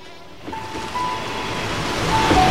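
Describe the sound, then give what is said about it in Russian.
Ocean waves washing over, a steady rushing surf hiss that swells gradually louder toward the end, with no voices. “Поезд проезжает мимо него. Призрака смывает волнами в сторону.”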